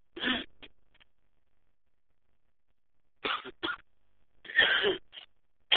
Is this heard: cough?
yes

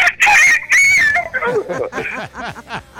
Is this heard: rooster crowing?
yes

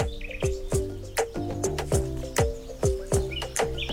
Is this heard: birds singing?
yes

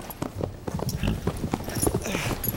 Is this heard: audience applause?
no

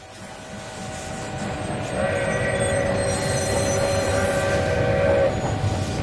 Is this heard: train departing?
yes

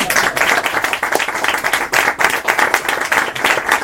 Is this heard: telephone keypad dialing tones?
no

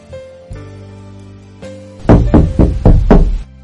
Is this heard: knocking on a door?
yes

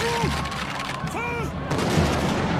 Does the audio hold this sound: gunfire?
yes

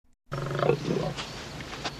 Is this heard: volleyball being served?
no

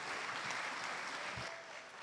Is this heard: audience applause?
yes

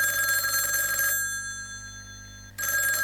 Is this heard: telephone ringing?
yes

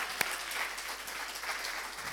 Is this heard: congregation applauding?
yes

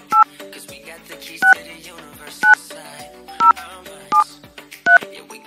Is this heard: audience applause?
no

